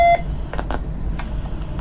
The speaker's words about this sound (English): Now I'm going to press the time key. It has an onboard clock.